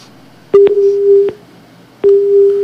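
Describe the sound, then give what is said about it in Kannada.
A telephone busy tone follows a disconnected call as two loud, steady mid-pitched tones with sharp clicks at their starts. The first lasts under a second, and the second runs on until the end after a short gap. “ಪಾಪ ಕರೆ ಕಟ್ಟಾಗಿ ಹೋಗ್ಬಿಡ್ತಲ್ಲ, ಎಂತ ಕೆಲಸ ಆಯ್ತು.”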